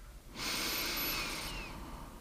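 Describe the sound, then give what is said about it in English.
A deep breath drawn in through the nose during a guided evening meditation, one long, steady, loud airy hiss lasting a little over a second, with no talking over it. “Take another deep breath through the nose.”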